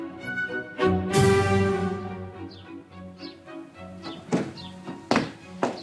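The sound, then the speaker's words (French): A heavy trunk is hauled along, making a few loud thunks and knocks, with sharper bumps near the end, over a faint sustained tonal background. “Aide-moi encore à tirer cette malle.”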